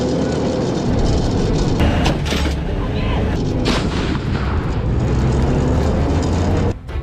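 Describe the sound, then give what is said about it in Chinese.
Tank cannon fire from a moving tank near the end of a 30-metre slope run: a heavy boom within loud, continuous engine rumble that runs throughout. “我们在最后的时候，马上要斜向路要到头了，马上要结束了，车辆马上快停的时候，才把这发弹打出去。”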